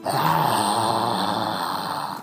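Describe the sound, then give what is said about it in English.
A voice imitating a monster's wheezing: a harsh, breathy, rasping groan held steadily for about two seconds before trailing off. “The smiler, like, lets out like a wheezing.”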